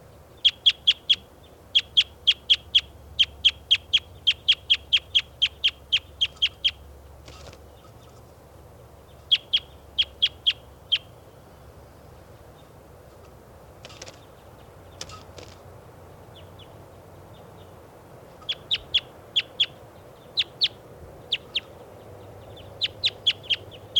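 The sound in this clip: Bird calls recorded in the field: many rapid bursts of sharp, high chirps come in quick runs separated by pauses, over a faint low background rumble.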